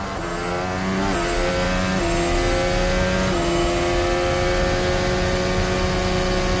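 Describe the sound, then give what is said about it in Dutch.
Car engine with a misfiring cylinder idling at low revs, a steady droning hum with layered harmonics that holds loud throughout, shifting slightly in pitch a few times. “Klinkt alsof die cilinder mist, hè? Niet hoog in de toeren ook.”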